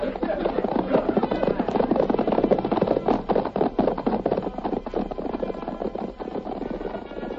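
Horses ride off, their hooves drumming in a dense, continuous clatter of many overlapping beats. The sound is loud and rumbling with a muffled, band-limited tone throughout.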